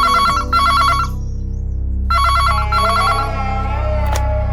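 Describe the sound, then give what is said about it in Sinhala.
A telephone rings on a balcony in bright electronic bursts: two quick rings, a pause, then another pair, all over a low, steady hum. “බැල්කනි එකේ කීප සැරයක්ම දුරකථනය නාද වුණා.”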